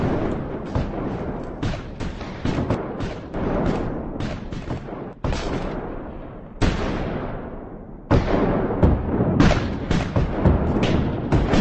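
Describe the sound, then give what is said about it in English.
A line of British redcoats fires a musket volley: loud, sharp bangs, each with a rolling rumble that fades, come in bursts. Several big reports stand out among smaller overlapping shots. “The line of redcoats are about to send out a volley of fire. They have practiced it over and over again, and it's going to kick out like a cannonball.”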